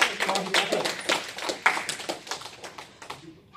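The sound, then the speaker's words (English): Brief applause for a student after a speaking exercise in front of a class audience: uneven, crisp claps that start strong, then thin out and fade away. “So let's give Hashim a big round of applause.”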